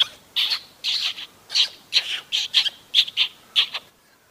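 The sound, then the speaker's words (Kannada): A parrot in a nest calls in a rapid series of short, high, squawky chirps, about a dozen bursts with brief gaps between them, loud and alone. “ಹಕ್ಕಿಗಳ ಗೂಡಿನಲ್ಲಿದ್ದ ಗಿಳಿಯೊಂದು ಹೀಗೆ ಇಂಪಾಗಿ ಕೂಗುತ್ತಿತ್ತು”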